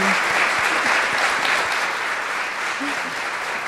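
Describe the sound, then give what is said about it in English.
Audience applause, a sustained wash of clapping that holds at a steady, fairly loud level from start to finish with no talk over it. “can we give Nancy a round of applause on that story?”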